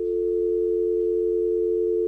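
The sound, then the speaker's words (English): A telephone dial tone comes from a phone line fed by XLR cable into a mixer line input. The steady, unbroken, hum-like tone keeps an even loudness throughout and plays alone. “I take an XLR cable from the output from the caller, and I put that into one of the lines in my mixer, and basically I just pick up the phone, and it sounds like this.”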